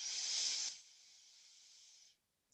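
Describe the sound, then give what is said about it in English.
Air is drawn in through the nose during a guided breathing exercise: a loud, airy hiss that drops to a softer, steady hiss before stopping. “Have a breath in here through your nose.”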